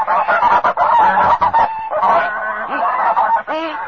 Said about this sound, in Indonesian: Itu angsa datang